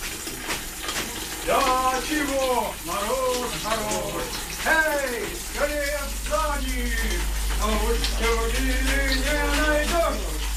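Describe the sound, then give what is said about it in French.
Freezing water pours into an ice bucket hung two metres up, making a steady rushing hiss that grows slightly fuller toward the end. People talk over it throughout. “là c'est le ice bucket suspendu à 2 mètres qui se remplit d'eau gelée”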